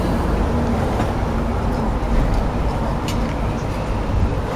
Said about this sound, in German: Das, was man jetzt hört, ist nicht das Rauschen der Bäume, sondern ein vorbeifahrendes Auto.